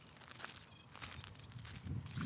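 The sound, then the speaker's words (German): Footsteps walking across a salt marsh, a few soft, muffled steps with light rustling, faint at first and growing a little louder toward the end. “dann würde ich sagen, wir laufen noch ein bisschen weiter”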